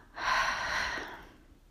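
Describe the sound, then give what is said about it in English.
A single slow breath is drawn in and let out, a soft, airy hiss lasting just over a second and heard alone. “Now take a breath and let it go.”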